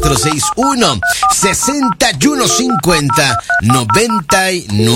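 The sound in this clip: Telephone dialing at a phone booth: a quick series of many sharp two-tone keypad beeps in an irregular rhythm, with a voice running underneath.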